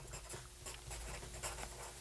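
Pen scratching across paper as notes are written by hand: a faint, steady, papery scratching that runs the whole time with small bursts of stroke noise.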